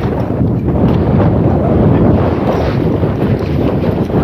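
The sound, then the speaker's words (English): Strong wind roars over a boat, a loud, steady, low rumble of gusts buffeting the microphone without pause and with no talk. “we're coming out into the wind again”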